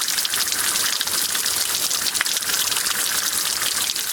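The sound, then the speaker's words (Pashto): Fresh water flowing in a narrow roadside stream, a continuous, even rushing and gurgling wash that carries on without pauses. “د سړک پر غاړه په یوه نری ویاله کې تازه ورنې اوبه بهیږي”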